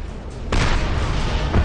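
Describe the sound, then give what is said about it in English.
Incendiary fire explodes in a video game: a heavy boom bursts in and rumbles on, followed near the end by a second, shorter blast. “So you basically have to just get close to him without getting hit by any of this incendiary fire.”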